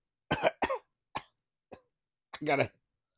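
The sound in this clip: Someone coughs and hacks repeatedly to clear a mustache hair caught in the back of the throat, several short throaty bursts separated by brief silences, the last one longer and more strained.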